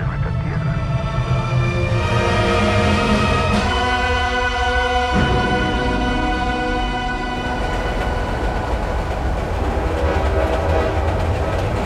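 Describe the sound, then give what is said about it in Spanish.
A train running with its horn sounding, as a radio drama effect: a loud, steady rolling rumble with a long, sustained horn blast that shifts pitch partway through and then fades into the continuing roar of the wheels. “Tengo que irme lo más rápido posible. Tengo que tomar el tren.”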